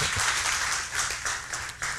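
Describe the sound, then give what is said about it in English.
A church audience claps together in a thick, continuous wash of many hands, steady in level with slight swells, and no talking over it. “There you go. That's one worth clapping for right there.”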